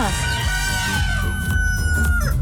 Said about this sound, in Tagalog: Yun, nagpamalot na ba mga manok dyan sa inyo mga katropa.